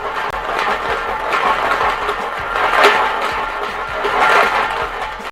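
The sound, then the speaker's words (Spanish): A lottery ball drum spins at a prize draw with a ball bearing tumbling inside, giving a steady, continuous mechanical whirring rattle with no talk. “todos los que han estado están formando parte del sorteo que empieza a realizarse en este momento con el bolillero que se pone en marcha.”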